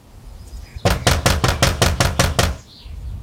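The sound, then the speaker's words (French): Knocking on a house door in 1905 rural France: a rapid, even series of loud, hard raps, one after another at a steady pace. The raps stop abruptly, with quiet before and after. “Eh bien viens, on va aller frapper chez lui.”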